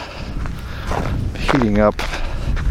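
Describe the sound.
Footsteps of a person walking, a steady run of soft, muffled steps with a short vocal sound partway through.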